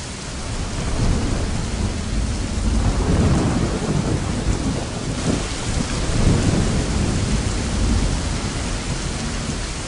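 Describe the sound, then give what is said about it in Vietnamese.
Thunder and heavy rain lash down in a night storm with strong wind. A dense, steady roar of rain and gusts fills the whole stretch with deep rumbling through it, and no voices. “Đêm, nổi gió lớn, sấm chớp giang rầm, mưa to tầm tã.”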